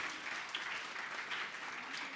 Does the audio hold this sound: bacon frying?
no